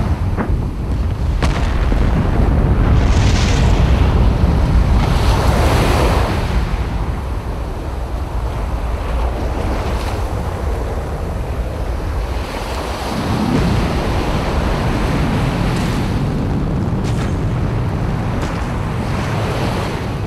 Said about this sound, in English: 10, 9, ignition sequence 6, 5, 4, 3, 2, 1, 0. All engines running.